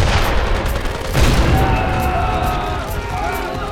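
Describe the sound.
An artillery gun fires with a heavy boom just over a second in, its deep rumble trailing off into continued low noise while voices talk over it.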